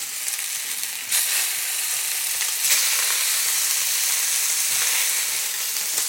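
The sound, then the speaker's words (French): Meat medallions brown in a hot frying pan, giving a loud, continuous sizzle and hiss. The sizzle swells in a couple of brief surges and otherwise stays steady, with no talk. “Voilà, ma viande continue de colorer. On devrait être bon dans pas très longtemps.”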